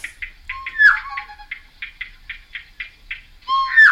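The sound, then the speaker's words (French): Two birds calling together: a quick run of short, evenly spaced high notes, joined near the start and again at the end by lower whistled phrases with downward sweeps. “Toro, c'est un oiseau. Et Tororo, c'est le deuxième.”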